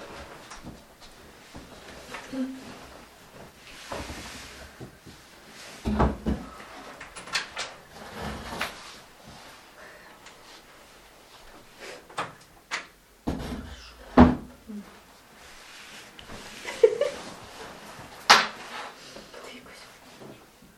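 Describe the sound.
A door being opened, heard as a few scattered wooden clunks and rattles spread across a quiet stretch, with soft scraping between them and sharper knocks near the end.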